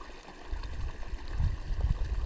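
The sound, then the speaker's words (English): Water of a stream flowing freely downstream down a gentle incline, a continuous low gurgling burble that grows slightly louder toward the end. “this water flows completely free”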